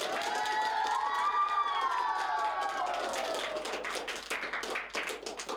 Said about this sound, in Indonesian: Ayo berikan aplaus yang meriah untuk Sesi dan Cheryl.